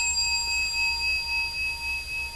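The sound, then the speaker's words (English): A meditation bell, rung to end a sitting, hums in a steady, faint sustain, its clear high ringing tones holding almost unchanged with a slight pulsing and no strike heard. “without making up the story bell? End of sitting, time to get up. Oh, I'm so glad he rang it.”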